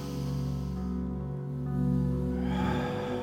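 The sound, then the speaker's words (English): A deep breath drawn in during guided breathing in a church sermon, heard as a soft airy rush near the end over steady sustained instrumental music. “just breathe in,”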